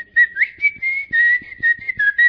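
A person whistling a tune alone in short, clear, high notes, some held and some sliding upward, separated by brief gaps in a lively rhythm.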